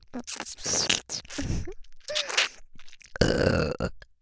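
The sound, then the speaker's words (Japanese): Close-up burps right at the ear in a Japanese ASMR recording: several croaky, voiced gurgling bursts with short pauses between them, the last one the loudest. “もちろん、ゲップですよね。”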